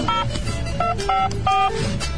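A telephone number is dialed in a short series of beeping touch-tone pairs, each clear and evenly pitched, spaced at slightly irregular intervals over a low background murmur.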